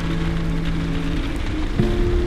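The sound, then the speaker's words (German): Steady rain patters against window panes in stormy weather, a dense, even hiss that stays level and unbroken for the whole moment with no voices. “Das Wetter ist ganz sicher stürmisch. Der Regen prasselt gegen die Fensterscheiben. Der Wind heult durch die Balken.”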